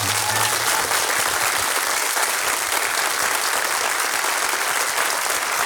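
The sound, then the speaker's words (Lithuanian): A crowd's applause welcomes an evening's guest of honour: thick, continuous clapping from many people, loud and even throughout with no clear break or swell. “Ponios ir ponai, plojimais pasitikime.”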